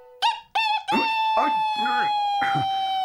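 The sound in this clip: A voice actor imitates a cartoon rooster attempting to crow in a Spanish-dubbed classic animated short: two short squawks, then a long, sustained, wavering cry, loud and alone.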